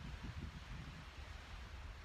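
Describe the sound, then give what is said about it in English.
Trees rustle as waves wash in and reflect off the shore, blending into a soft, steady hiss of leaves and surf with gentle low swells and no voices. “as the waves get louder, the sound of the trees gets louder too”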